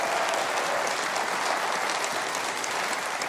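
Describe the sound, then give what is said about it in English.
Audience applause for a live band: dense, even clapping that holds steady and loud for the whole stretch, with no voices rising above it. “the Music City Connection, a big hand for the best band in the land.”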